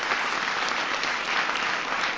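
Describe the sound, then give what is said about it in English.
Audience applause for science advisor John Holdren: a sustained, dense wash of many hands clapping at an even loudness, with no pause from start to finish. “We've got my science advisor, John Holdren, who is here. Give John a big round of applause.”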